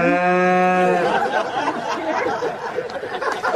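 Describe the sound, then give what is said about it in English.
A cow moos once in a sustained, tonal call of about a second during an outdoor wedding on a UK farm. A burst of guests' laughter and chatter follows. “It's a cow that crashed an outdoor wedding on a farm in the UK. So the cow's timing is just perfection, and we have the audio.”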